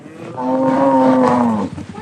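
A cow lows on a family cattle grazing property northwest of Longreach, giving a single drawn-out, deep moo that holds steady and dips slightly at the end, loud and alone.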